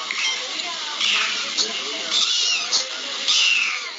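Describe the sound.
Cat meowing sound effect: several high, short meows repeat in an uneven rhythm over a constant background hiss.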